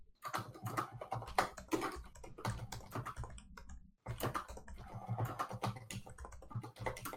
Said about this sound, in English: my typing is terrible